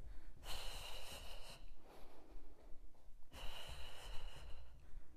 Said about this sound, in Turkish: Öne geriye. Nefes.